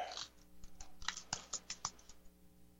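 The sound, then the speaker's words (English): Typing on a computer keyboard: a quick, quiet run of crisp key clicks in an uneven rhythm, with no talk. “Let me type in the word political.”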